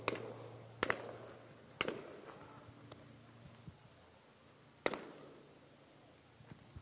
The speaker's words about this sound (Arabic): في هذه الأثناء نسمع عدة طلقات حي باتجاه شبان نراهم أمام أعيننا في هذه المنطقة.